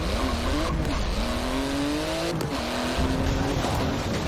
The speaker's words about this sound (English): So, how do I drive this thing? It should drive on its own, just hold down the gas.